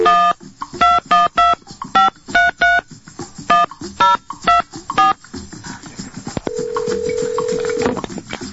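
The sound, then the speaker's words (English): Telephone keypad dialing tones: a quick, irregular string of many short beeps, then after a pause a single steady tone holding for over a second. “Now I'm going to dial.”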